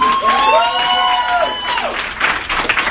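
Comedy club audience applauding and cheering as a comedian is brought on, with a dense, steady wash of clapping and whoops and some whistle-like tones sweeping across the first half.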